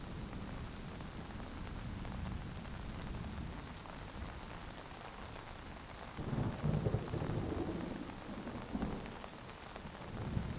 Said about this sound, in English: You enter the forest. An invigorating splash of raindrops cools your face.